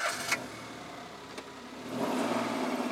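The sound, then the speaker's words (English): A family car's engine starting up; faint background noise gives way near the end to a louder, steady low engine hum. “Once safely inside, their father turns on the car and asks them,”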